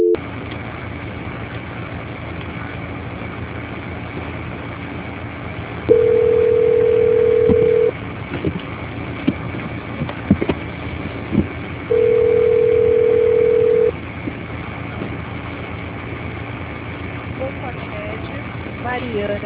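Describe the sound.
Telephone tones play on a call being transferred: two long, steady, mid-pitched beeps, each lasting about two seconds, separated by several seconds of quiet line hiss.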